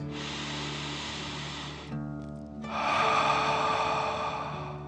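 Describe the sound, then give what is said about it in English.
A deep dragon breath in and out during a guided breathing exercise: a long airy inhale, a brief pause, then a longer, stronger exhale, over soft sustained background music. “Take another deep dragon breath in and out.”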